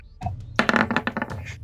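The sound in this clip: Dice rolled for an attack roll in a tabletop fantasy role-playing game: a short burst of quick clattering taps that rattles briefly, then stops.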